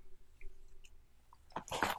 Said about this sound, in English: It actually doesn't taste that bad, though. Okay. It kind of just tastes like super cinnamon-y Special K.